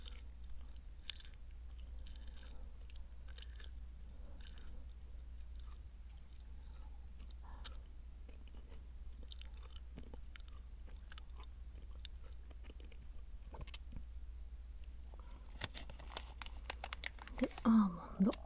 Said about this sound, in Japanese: ちょっと音がうるさいかもね。これはクランベリーかな。